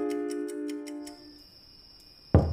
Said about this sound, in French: elle se laissait bercer par le tic-tac de l'horloge.